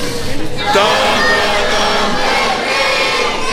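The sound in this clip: A studio audience in Mexico shouting loudly on cue, a sustained roar of many voices yelling together at full strength throughout.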